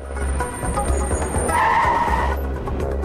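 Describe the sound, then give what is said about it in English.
A car engine roars while the vehicle races along, then its tires let out a sustained screech as it brakes to a halt, with the rumble continuing underneath and no voices. “The car races through the gathering dusk and screeches to a halt in front of the pharmacy.”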